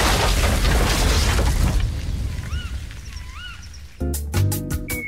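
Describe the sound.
An explosion-like boom from a TV commercial in which an asteroid strikes a woman: a loud, broad roar fills the first two seconds and then fades. A quieter stretch with faint chirping tones follows, and sharp tonal hits close it.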